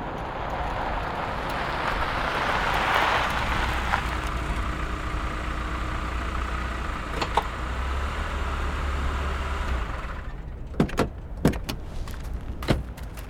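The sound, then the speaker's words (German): A car pulls up and parks in front of a village inn, its steady engine and road rumble running for several seconds before it stops, followed by a few sharp clicks and thumps as doors open and people get out. “Ray parkte den Wagen und stieg mit den Models vor dem Gasthaus des Ortes aus”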